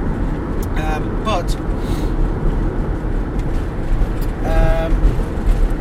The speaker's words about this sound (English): I'm up to 90 kilometres an hour. I'm going downhill now, so it wants to go to 100